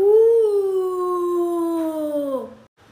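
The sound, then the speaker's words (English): A whale call: one long, smooth, tonal moan that rises slightly, holds, and then slides lower before cutting off. It is loud and heard alone. “Whales use echolocation and sound like this.”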